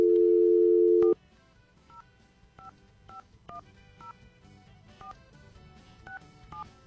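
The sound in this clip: Telephone dialing tones: a loud steady tone stops abruptly, then many short two-note keypad beeps follow at an uneven pace over faint background noise.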